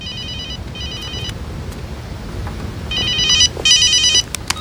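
A telephone rings at a police department: high, warbling electronic trills in two pairs of short bursts, the second pair louder, over a low steady background hum.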